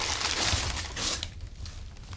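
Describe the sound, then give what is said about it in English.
Plastic and cardboard packaging rustles and crinkles as a boxed 30-inch TV is unwrapped. Dense, crackly handling noise fills the first half, then gives way to quieter, scattered rustles. “All right, so I'm gonna open it up here. a lot of things to unwrap.”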